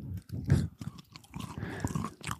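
Chewing of a crunchy chocolate bar with caramel and puffed rice, close up for ASMR: moist crunching and munching in uneven bursts, moderately loud, with no talk.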